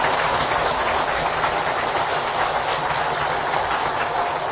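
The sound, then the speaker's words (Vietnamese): A large audience at a Buddhist dharma lecture gives a long round of applause to honour the venerable monk lecturer: a dense, even roar of clapping that holds loud and unbroken throughout. “Toàn thể đạo tràng cho một tràng vỗ tay thật lớn để cung kính Đạo Đức.”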